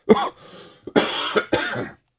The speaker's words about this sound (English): I'm sorry, I got this cough going on still